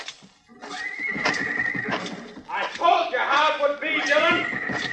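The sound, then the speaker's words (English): In a radio western drama, a horse in a corral neighs and whinnies with loud, shrill, repeated cries over clattering hooves. “Martin's running into the corral. Yes, sir, I see him, Mr. Dillon. You're trapped, Martin. Now climb out of that corral.”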